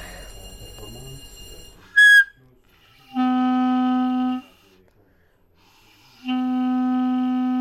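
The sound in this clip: Two steady blown notes from a wind instrument being tuned by shaving off slices, each held about a second with a pause between, at a similar pitch; a brief high squeak comes before them.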